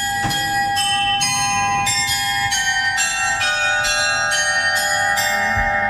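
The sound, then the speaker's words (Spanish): Bells of the medieval astronomical clock inside Münster Cathedral: a long series of evenly spaced, bright, high chimes, each strike ringing on into the next over a sustained shimmering tone. “Así que lo grabé yo este sonido en la catedral de Munster, en el interior, que guarda un precioso reloj astronómico medieval.”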